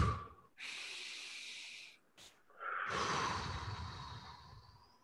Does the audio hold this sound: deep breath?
yes